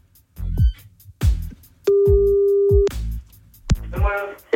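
An outgoing telephone call ringing, a single steady ringback tone lasting about a second, set among loud punchy percussive thumps that come before and after it.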